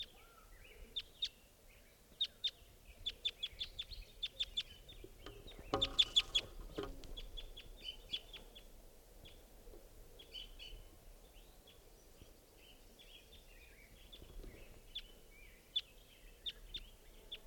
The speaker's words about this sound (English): It's flying around. Wild bird.